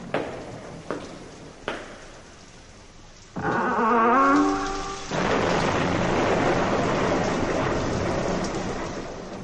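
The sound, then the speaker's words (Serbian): A thunderstorm opens with three sharp thunder cracks, then swells into a loud roar that settles into steady, heavy pouring rain lasting to the end. “Grmelo i sevelo sa svih strana. Kiša je lila kao iz kabla.”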